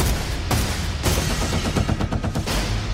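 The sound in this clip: Gunfire erupts in loud, booming shots: two separate blasts followed by a rapid string of many more, dense and harsh, with no voices heard.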